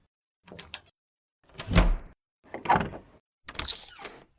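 Front door being opened from inside: four separate bursts of mechanical clunks and rattles spaced about a second apart, moderately loud, with no voices.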